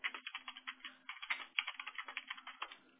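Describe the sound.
Rapid typing on a computer keyboard while details are entered during a customer phone call: many quick, uneven keystrokes in bursts, heard alone with no talk over it.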